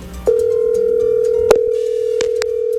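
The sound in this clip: A steady telephone line tone, heard while waiting for a call to be answered, starts after a brief quiet moment and holds as one continuous mid-pitched hum, with a few faint clicks over it.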